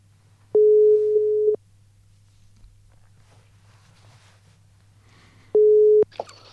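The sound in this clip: Ringback tone on a telephone line while a call waits to connect. Two steady, mid-pitched beeps, each about a second long, are separated by several seconds of faint line hiss, with a short click at the end.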